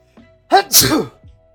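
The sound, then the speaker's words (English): A person lets out a single loud, explosive sneeze that bursts suddenly and trails off quickly. “Ooh, sorry, that was a sneeze and a half.”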